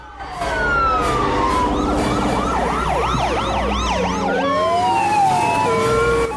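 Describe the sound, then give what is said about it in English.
Several police car sirens sound together, loud and continuous. Long wails overlap with rapid yelping up-and-down sweeps above a low rumble. “runs to the window and looks through the Venetian blinds. Police cars are gathering out front.”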